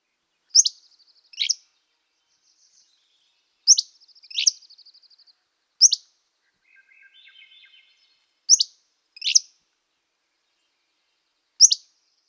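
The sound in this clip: Hammond's flycatcher song: sharp, high chirping notes in singles and pairs, separated by pauses, with a lower buzzy phrase midway. Clear and isolated against silence.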